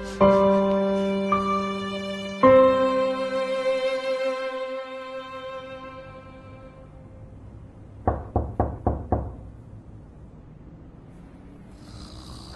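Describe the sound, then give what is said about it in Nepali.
Late-night knocking on a door: a quick run of several sharp raps, coming after a stretch of sustained musical tones that fade out, then quiet. “क्या यति बेला ढोका ढकढक गर्ने?”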